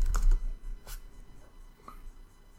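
Computer keyboard typing, a search being entered: a quick burst of fairly loud keystrokes at the start, then a few softer, scattered key taps.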